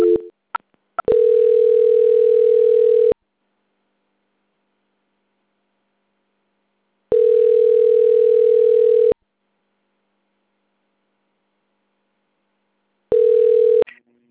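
Telephone line tone while a call is transferred to a bank's quality-control department: a steady, loud tone in three bursts of about two seconds, separated by roughly four seconds of silence and preceded by brief clicks.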